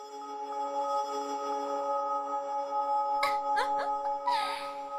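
Healing magic spell sound effect: a sustained, shimmering chord of steady ringing tones, joined later by bright bursts of sparkling chimes.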